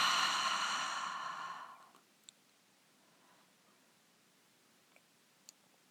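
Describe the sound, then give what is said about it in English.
A soft, breathy exhale through the mouth during a gentle breathing exercise. It lasts about two seconds and fades to near silence, followed by a few faint clicks. “And again, gently inhale through the nose and exhale through the mouth.”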